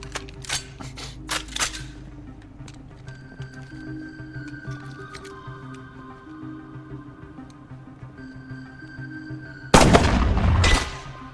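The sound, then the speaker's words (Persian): Desert Eagle .50 AE pistol gunshots: a few sharp, loud cracks at the start, a long quieter stretch with steady tones, then a heavier burst of noise near the end. “این یه کلت صحرایی 50AE، یکی از قدرتمندترین کلتای دستی تو جهان. این میتونه تو هر چیزی یه سوراخ ایجاد کنه.”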